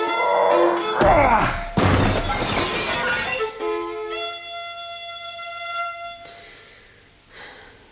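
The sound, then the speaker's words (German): A desk is thrown through a window, and the glass breaks with one sudden, loud crash, followed by a long, bright spill of shards tinkling down that slowly fades. “Schmeiß diesen scheiß Schreibtisch durch das scheiß Fenster.”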